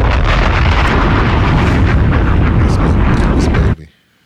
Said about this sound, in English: Bombs!